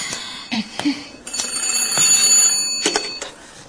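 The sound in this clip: A telephone ringing: a shrill, continuous metallic ring with a few sharp clicking strikes runs for several seconds.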